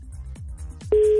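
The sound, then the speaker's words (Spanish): A telephone call being dialed that does not connect: two soft, low thumps, then a steady single-pitched phone tone starts and holds to the end. “Ok, estoy marcando. ¿Contestará o no? Tun, tun, tun, tun, tun.”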